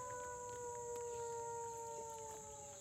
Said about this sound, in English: I was starting to think there was no way we were going to fool these wolves. As good as the guide's howls were, it's obvious we weren't fellow pack members lost somewhere.